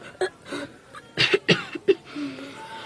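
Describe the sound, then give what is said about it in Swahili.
Harsh coughing from a young patient who has coughed for many days and brought up blood, set in a hospital drama. Several uneven, moderately loud coughs come in a ragged series with short gaps between them. “Dokta, mdogo wangu amekuwa akikohoa kwa muda wa siku nyingi sasa, na jana usiku alikohoa damu.”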